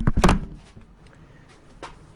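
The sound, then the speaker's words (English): An audio recorder drops with a heavy, dull thump and brief clatter while a Squier guitar neck is being masked off, followed by quiet handling and one fainter knock near the end. “Oh, dropping the recorder.”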